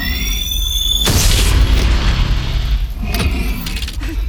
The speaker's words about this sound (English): the sound of the shotgun reverberating around the area